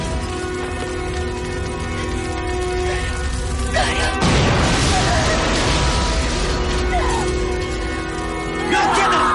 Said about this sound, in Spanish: Las llamas alcanzan el coche de Paloma que está bajo el porche y explota.